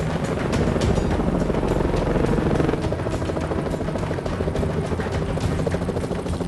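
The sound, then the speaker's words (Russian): Helicopter overhead, a loud, steady rotor chop and engine roar that runs unbroken through the whole stretch. “За Рэем гонится вертолет.”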